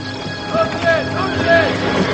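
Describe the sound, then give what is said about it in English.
Horse-drawn wagon clip-clopping into the town of Pembroke, with a few hoof beats falling at an uneven, moderate pace amid other tonal sounds. “Anne's riding with her parents in their wagon as they enter Pembroke.”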